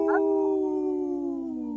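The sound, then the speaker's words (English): People imitate wolves with a sustained howl sung in three-part harmony. The long, steady voiced tone slowly sinks in pitch across nearly two seconds, with no words spoken. “Howl! Howl! Howl!”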